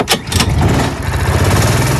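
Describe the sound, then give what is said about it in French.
Adult go-kart engine starting at a leisure karting track in Beaucaire: two sharp bursts, then a steady, loud, buzzing low rumble as the small engine settles into running. “Ça, c'est le bruit du moteur à l'allumage d'un karting adulte à partir de 14 ans.”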